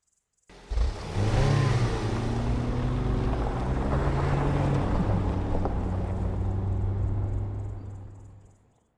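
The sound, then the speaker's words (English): A car engine starts up and runs with a steady low drone for about eight seconds as the car reverses out of a driveway, then fades at the end. “You grab the steering wheel tight and yank it hard to break the steering lock. You start to reverse out the driveway.”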